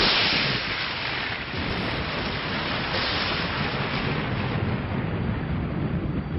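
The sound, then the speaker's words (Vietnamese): Deep rumbling thunder outside an ancient ruined fortress after the rain has stopped, a loud, steady low roar that continues without a break from start to finish. “mưa đã ngớt từ lâu, song tiếng sấm trầm đục vẫn vang lên đùng đùng như chưa từng dứt.”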